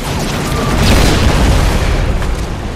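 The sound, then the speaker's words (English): Heavy, continuous booming explosion rumble as Type 93 torpedoes, hit by machine gun bullets while hoisted over a ship's side by a winch crane, blow up. The roar is dense and sustained, with no clearly separate blasts. “Captain Hara complies, but as they're hoisted over with the winch crane, they are peppered by machine gun bullets and explode,”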